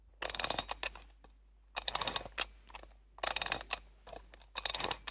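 Ratcheting clicks of a small key being turned to wind a music box mechanism, coming in four separate bursts of rapid clicking with short silent pauses between them.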